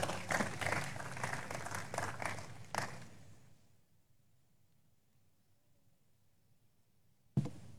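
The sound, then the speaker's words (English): An audience applauds during a church service: steady, dense clapping lasts about three seconds, then dies away into faint room noise, with a single sharp thump near the end. “Please be seated and put your hands together for the Lord.”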